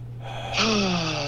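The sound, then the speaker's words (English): A deep breath drawn in through the nose during a guided breathing exercise, a soft airy inhale that swells midway and holds steady, over a constant low hum. “Let's do three of those. In 3, 2, 1, all the way in through the nose.”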